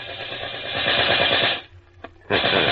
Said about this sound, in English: Tell them to stop the shooting.